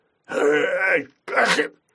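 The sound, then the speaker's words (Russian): A young tyrannosaur with a yellowish crest sneezes as a creature sound effect: a long, throaty, groaning burst, then a shorter, sharper snort after a brief gap. Two loud events, no talk. “Чихнул ящер.”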